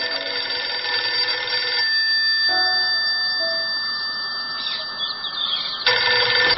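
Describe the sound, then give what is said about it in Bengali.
A landline telephone rings with loud, steady electronic tones. The tones shift partway through but carry on without a break, with no voices. “কে যে ল্যান্ডফোনে phone দিচ্ছে তখন থেকে?”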